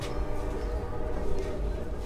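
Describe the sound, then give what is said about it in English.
A train rumbles past outside a Union soldier hospital, a faint, steady low rumble with a soft mechanical hum that holds evenly for the whole clip. “A train rumbles by as I walk outside a Union soldier hospital.”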